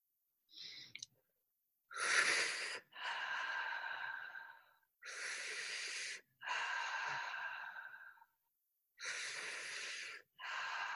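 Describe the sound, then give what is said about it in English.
Breathing exercise with soft yet powerful inhales, each followed by a gentle, unforced exhale. The breaths repeat several times with brief silent gaps between them. “So it's a soft yet powerful inhale and then a gentle release, like gravity is just pulling the breath from you.”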